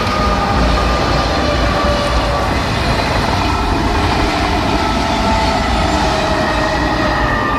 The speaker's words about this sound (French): C'est très reposant malgré le ballet des TGV.